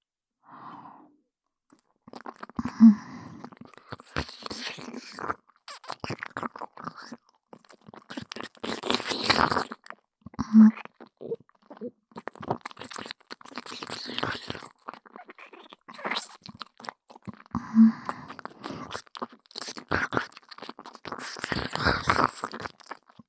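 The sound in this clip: Crunchy food being bitten and chewed: many sharp, crisp crunches come in irregular bursts across the whole stretch, with soft breathing in the pauses between bites.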